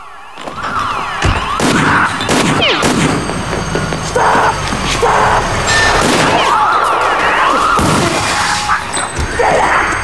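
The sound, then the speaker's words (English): Gunshots ring out as men from a truck fire warning shots into the air after crashing through a wall into a security depot; several sharp, loud bangs cut through a continuous rumbling, crashing background. “The truckmen get out and fire warning shots into the air.”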